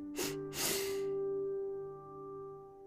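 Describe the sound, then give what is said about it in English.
Two quick breaths drawn in through the nose or mouth as part of a paced breathing exercise: a short sniff followed by a longer, airy inhale, both soft and breathy over a steady, sustained drone that lingers afterward. “and one long exhale through your nose or your mouth. I'll do a demonstration and then we will do three rounds together. So inhaling for two.”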